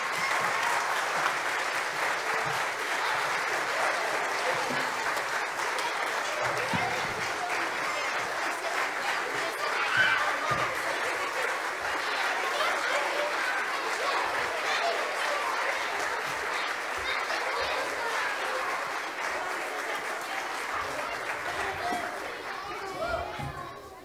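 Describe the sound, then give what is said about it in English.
An audience applauds after a choir performance with dense, sustained clapping that lasts the whole stretch. Crowd chatter and children's voices mix into the clapping. “Everybody want to give them one more round of applause? Everybody now.”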